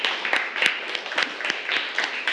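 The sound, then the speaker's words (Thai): Scattered hand claps from an audience of classmates applauding a fellow student in a class. The sharp claps come unevenly and at moderate loudness, with no clear steady rhythm. “ปรบมือให้เพื่อนหน่อยครับ”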